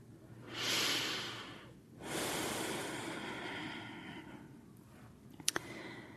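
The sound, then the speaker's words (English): Slow, deep breathing in a mindfulness meditation class: a soft breath of about a second, a brief pause, then a longer airy breath that fades gradually, followed by a couple of faint clicks. Quiet throughout. “So just inviting the body to take a few longer, slower, deeper breaths.”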